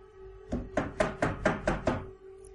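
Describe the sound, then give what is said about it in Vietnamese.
Knocking on a door, seven dull, solid knocks in an even, steady rhythm, each a sharp thud that fades quickly, heard alone over a faint steady hum. “có tiếng gõ cửa bất chợt vang lên”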